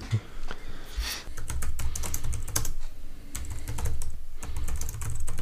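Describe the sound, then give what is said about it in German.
Typing on a computer keyboard: a fast, uneven run of many sharp key clicks and taps, continuous throughout with no talk. “Schreibst du mir jetzt oder was machst du? Nee, ich habe gerade was anderes geschrieben.”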